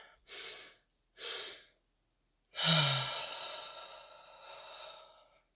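Two quick, sharp inhales, then one long, sighing exhale, done as a double-inhale exercise in a guided breathwork meditation for feeling overwhelmed. The short sniffs are separated by a pause, and the breath out trails off slowly.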